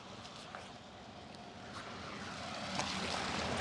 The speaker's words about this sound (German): Meine Güte, ey, die fahren Karren hier oben. Umwelt lässt grüßen.